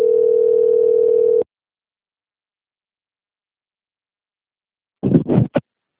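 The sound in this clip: A telephone dial tone sounds while the caller prepares to call back after failing to hear the other party. It is a steady, single-pitched, moderately loud tone for about a second and a half, then cuts off abruptly into silence.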